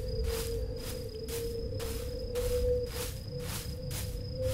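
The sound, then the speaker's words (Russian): A low-battery warning pulses in a horror video game: rapid, steady buzzy beats about twice a second over a constant mid-pitched tone and a faint high whine, with no talk. “У нас уже квакает батарейка.”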